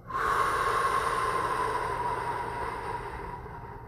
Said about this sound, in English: In through your nose. Out through your mouth. Last one. Breathe. Let it go.